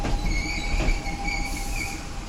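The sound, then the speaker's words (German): A train rides along the rails, with a steady low rumble and a thin, high squeal from the wheels running continuously over it. “3 Wochen sitzt Kevin im Zug.”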